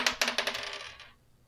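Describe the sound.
Dice roll on a table during a tabletop role-playing game, a few quick, bright clattering hits that blur into a fading rattle and die out after about a second, with no voices.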